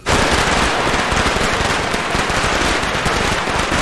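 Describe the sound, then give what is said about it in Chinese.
A string of firecrackers set off for a birthday celebration, heard as a loud, dense, continuous crackle of rapid pops that stays steady from start to finish. “我看把你能力些，你过个生还放炮呢？”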